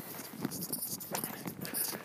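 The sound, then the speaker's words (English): Footsteps of someone walking in the street, a few soft, irregular scuffing steps mixed with light rustling and low background noise. “so here I go walking past someone in the street.”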